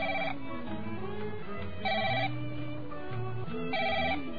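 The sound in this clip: A telephone rings in three short tonal bursts, evenly spaced and repeating over a steady musical background, with no voices.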